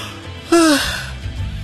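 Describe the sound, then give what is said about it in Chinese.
A drowsy person yawns during a phone call: one brief voiced yawn whose pitch slides downward, followed by soft breathy noise and a low background hum. “对方打了个哈欠”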